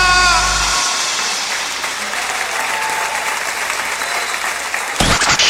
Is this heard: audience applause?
yes